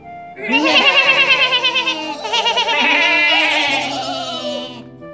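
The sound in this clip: Sheep bleat on an open grassland, a few long, quavering, fairly high calls that overlap one another. They are loud and heard without talk.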